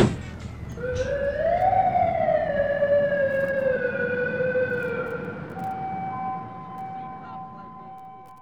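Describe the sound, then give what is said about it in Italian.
A siren closes a sound-collage piece. Its loud wail rises in pitch, then holds a long steady tone that slowly fades, and other steady tones join near the end. “E finisce con questa assurda sirena”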